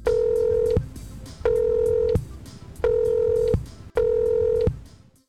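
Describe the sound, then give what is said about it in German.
Telephone line tones while placing a call to Nicaragua in Central America: four evenly spaced, steady buzzing beeps of equal length with short pauses between them, over a low rumbling background. “Dieses Mal telefoniere ich nicht nach Südamerika, sondern nach Mittelamerika.”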